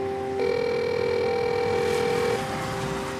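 A door intercom buzzer at an apartment building entrance sounds one steady buzz lasting about two seconds, over a constant background hiss.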